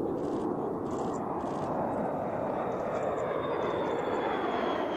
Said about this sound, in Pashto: بي 52 بمبار چې د اټمي وسله وړلو توان لري د اوسان هوایي اډې د پاسه په الوت کولو لیدل شوې دي.